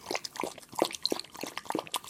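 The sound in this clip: A police dog drinks water, lapping in a quick series of wet slurps and small splashes, faint and irregular, with several distinct laps over a couple of seconds.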